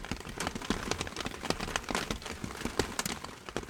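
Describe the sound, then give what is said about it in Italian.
Rain in an outdoor ambient field recording, a soft continuous patter with many scattered sharper drops ticking through it, fairly faint and without voices. “Pioggia, semplicemente pioggia”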